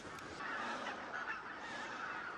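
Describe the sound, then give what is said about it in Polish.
Geese honking as a large flock sits on a lake, a loud, dense, unbroken chorus of overlapping nasal calls that holds steady throughout with no talking. “Wygląda, że te wszystkie gąski siadły na jeziorze ptasira i zaraz wejdziemy na wieżę, będziemy je oglądać i nagrywać, bo jazgot jest niesamowity.”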